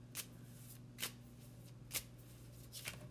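Oracle cards being shuffled by hand for a shadow-work reading: a few short, crisp riffling bursts spaced about a second apart, each brief and papery, over a steady low hum with no talking.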